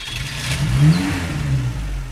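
Car engine revving as the vehicle pulls away, a steady low growl that swells slightly in the middle and holds at a fairly even level throughout, with no voices.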